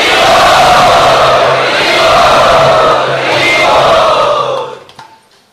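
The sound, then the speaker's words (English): A crowd at a Ukrainian community gathering chants loudly in unison to welcome a speaker known for kirtans. Voices swell in long sustained phrases at full strength, then fade out near the end. “Let us welcome him by loudly chanting.”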